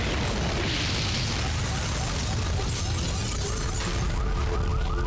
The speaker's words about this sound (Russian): Мужчины садятся в машину, и она взрывается.